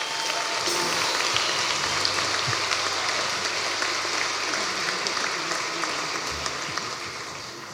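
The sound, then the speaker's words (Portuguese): Audience applause at a comedy roast event, a dense, continuous patter of many people clapping at moderate volume, holding steady for several seconds before easing slightly toward the end. “Grande aplauso para o Francisco Menezes”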